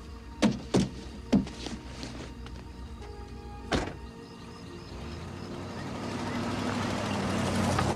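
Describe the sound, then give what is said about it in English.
A car drives away: a few dull thuds, then engine and road noise building steadily and growing louder toward the end. “He gets out and she drives away.”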